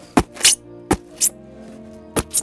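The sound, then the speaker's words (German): A ballpoint pen pokes holes in the bottom of cooler boxes used for eggs. Three paired sounds each begin with a sharp crack followed by a hissy scrape, over a steady low hum. “Als erstes müssen wir mal in die Gachas, also in die Kühlboxen, im Boden rein Löcher machen. Und das ist, damit die Eier ein bisschen Luft haben. Dann machen wir es mit einem Kugelschreiber.”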